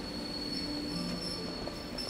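A train pulls away from a station platform with a quiet, steady rolling rumble and a thin, high squeal of wheels held throughout.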